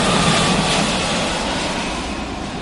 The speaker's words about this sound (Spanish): Cogemos el avión y nos vamos al oeste de Asia. ¡Despegamos!